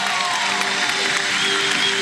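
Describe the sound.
An audience applauds at a church gathering. The clapping is steady, dense and continuous for about two seconds, with no voices standing out.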